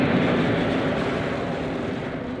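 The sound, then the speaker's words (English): An airplane takes off with a loud, dense roar that holds nearly steady and eases slightly over a couple of seconds. “And now, prepare for departure. We are cleared for takeoff.”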